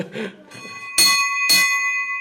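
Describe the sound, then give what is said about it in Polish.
A commemorative bell hanging at a fire station is struck twice in quick succession. Each bright metallic clang rings on with a sustained, shimmering tone. “Pamiątkowy dzwonek wisi. Radość z urodzenia dziecka strażaka można by było ogłosić tym dzwonkiem. Można by było bić cały dzień w ten dzwonek.”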